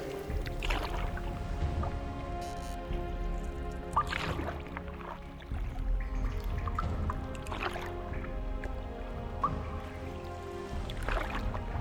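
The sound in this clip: Water sloshes and trickles as a small rowing boat moves along, with soft splashes and drips over a steady, quiet wash and no talking.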